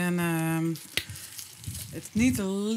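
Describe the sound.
Wild goose legs cooking slowly in a pot give a soft, steady sizzle and faint crackle, with a person talking before and after.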